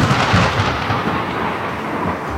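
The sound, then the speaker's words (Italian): Thunder rolls through a storm at sea: a loud, deep, continuous rumbling roar that slowly eases, with no voices. “La tempesta cattura la nave come un giocattolo, strappando le veli e scagliandola di nuovo verso lo stretto. I marinai si affannano ai remi ma non hanno scampo, perché Zeus stesso gli scaglia contro il suo fulmine,”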